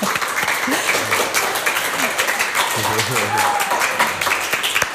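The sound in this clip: An audience at the Zázračný oriešok literary festival applauding themselves: continuous, fairly loud clapping throughout, with some voices mixed into the crowd.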